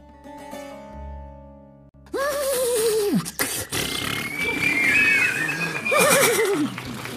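A horse whinnies loudly, a long shaky neigh that falls in pitch, then a second similar whinny later on. Brief sustained tonal music comes before the first call, and busy background noise runs under both.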